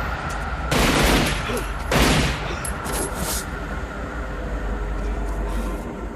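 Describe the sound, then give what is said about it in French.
Pistol gunfire in a film shootout scene: a few loud bursts of shots, the heaviest in the first seconds, then lighter cracks over a steady low rumble. “Je pense que c'est la meilleure bataille de pistolets avec des armes dans le film.”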